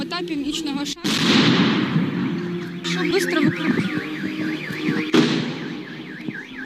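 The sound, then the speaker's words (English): Blasts from the grenade launcher of an anti-tank weapon, accidentally fired at a fair in Ukraine: a few loud, sharp bursts over continuous rumbling noise, joined by a wailing, oscillating siren like a car alarm. “a 10-year-old boy accidentally shot off a grenade launcher, part of an anti-tank weapon. It happened at a fair in Ukraine over the weekend, and here was the audio.”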